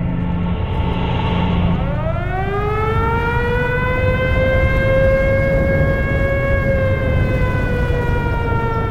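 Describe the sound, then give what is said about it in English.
A storm-warning siren horn wails, sweeping steeply upward in pitch after a couple of seconds and then holding a loud, sustained harmonic tone over a steady rushing rumble. “Just then, the air was filled with the rising blast of a horn. Fuck, I thought. The storm.”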